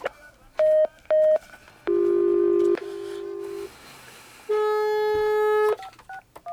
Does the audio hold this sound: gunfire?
no

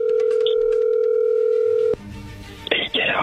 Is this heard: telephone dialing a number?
yes

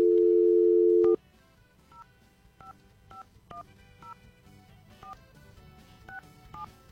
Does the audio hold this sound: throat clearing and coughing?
no

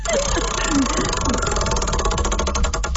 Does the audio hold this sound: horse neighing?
no

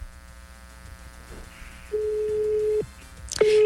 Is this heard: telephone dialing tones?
yes

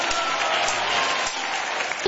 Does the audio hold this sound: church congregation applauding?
yes

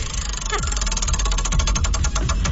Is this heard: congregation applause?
no

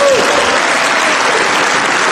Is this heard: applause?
yes

